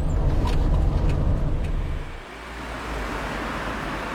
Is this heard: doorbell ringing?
no